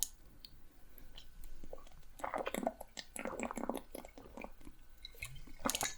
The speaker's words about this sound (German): jetzt muss ich erstmal was trinken nochmal